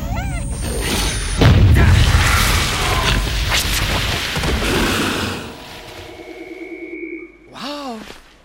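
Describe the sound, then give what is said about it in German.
A grenade explosion in a video game: a sudden loud booming blast with a broad rumbling tail that fades over several seconds. Tonal game sound effects ring through it and near the end. “War eine gute Idee mit der Granate.”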